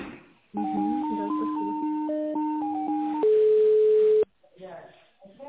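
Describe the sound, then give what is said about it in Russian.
Electronic telephone call signal on an office line: a stepped beeping melody of shifting tones, then one long steady tone that cuts off abruptly, followed by faint voice sounds. “а только что сейчас девушка звонит”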